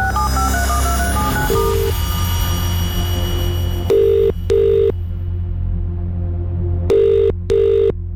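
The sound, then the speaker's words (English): A telephone call is dialled with a quick run of keypad tones, then a ringback sounds in loud paired bursts, two double rings in all, over a steady low hum. “Let's dial up.”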